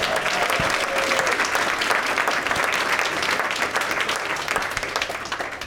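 Audience applause greeting an audience member's pregnancy news at a live comedy show: a dense, steady wash of clapping that stays loud throughout and eases slightly toward the end.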